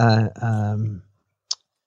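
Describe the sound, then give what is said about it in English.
A single short, sharp snip as a package of Nut Thins crackers is cut open. It comes after a stretch of talking and is followed by silence. “Oh, my God. I can't even open these. Yeah. I have to cut them. I was going to use my teeth.”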